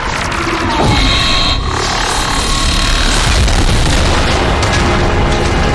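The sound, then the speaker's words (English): Heavy explosions as Alliance frigates fire on Saren's ship in a video game space battle: a loud boom bursts in, then a sustained rumbling roar continues with crackling debris-like noise. “Alliance frigates are blasting Saren.”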